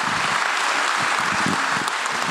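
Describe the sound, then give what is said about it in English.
Applause from a crowd welcoming a speaker at a Mother's Day morning church gathering: dense, even clapping that stays steady and loud for the full two seconds. “So would you guys just put your hands together and let's welcome Miss Lindsay this morning.”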